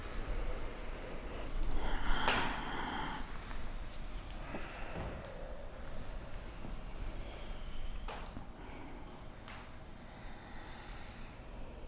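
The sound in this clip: A slow, quiet breath being drawn in during a breathing exercise, heard as a long, steady airy hiss that swells slightly early on, over a constant background noise.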